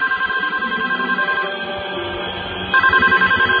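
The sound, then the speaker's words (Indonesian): Telephone ringing in a room, two bursts of bright electronic ringing separated by a short gap, loud and alone. “Ada suara telepon berbunyi di kamar itu.”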